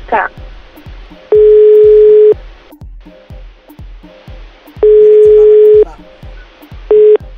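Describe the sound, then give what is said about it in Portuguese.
Ringback tone of an unanswered telephone call: three long, steady tone bursts, the last cut short, sounding over a soft, steady rhythmic pulse in the background. “Ó, não tem jeito, Juliane, ele não vai atender mesmo.”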